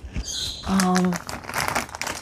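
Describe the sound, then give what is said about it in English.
Crinkling and rustling of sticker packets as someone grabs and rummages through them to decorate a packet envelope. The crackles run steadily throughout, with a brief voice partway through. “So in this case, I think I used a sticker. So let me grab my stickers.”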